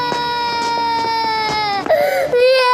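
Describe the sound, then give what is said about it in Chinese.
A young girl crying: a loud, sustained high-pitched wail with sobbing breaks, continuous throughout, its pitch dipping lower near the end. “哭哭哭，就知道哭。”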